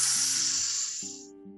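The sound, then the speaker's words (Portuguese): A deep breath drawn in to fill the diaphragm, a loud airy hiss that thins and fades out after about a second, over soft sustained musical tones. “Inspiração profunda, enchendo o seu diafragma.”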